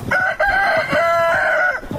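Chickens in a house yard, about fifteen birds pecking in the dirt: loud, sustained crowing and clucking calls with a strong tonal, harmonic quality, continuing steadily for about two seconds.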